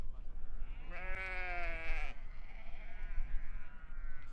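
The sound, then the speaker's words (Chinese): Sheep bleat as a flock is penned at a summer pasture: one loud, wavering, drawn-out bleat is followed by a fainter, longer call over low background rumble. “羊群进圈后就关上了门”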